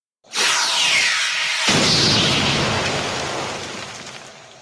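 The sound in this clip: Phaser blast striking a boulder, which explodes: a loud sweeping whoosh, then a sudden explosive burst with deep rumble that slowly fades away.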